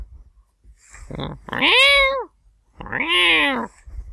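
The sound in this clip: A cat meowing twice, two loud drawn-out meows with a clear rise and fall in pitch, separated by a short pause, with no other sound around them.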